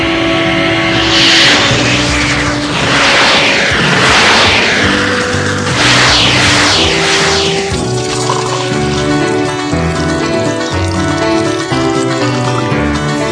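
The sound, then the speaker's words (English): A car drives off for a spin with a loud, continuous engine roar, sweeping whooshes and steady tones that shift in pitch throughout. “Looks like we found some wheels. It's about time. Let's take it for a spin. All right, but let me take care of the driving.”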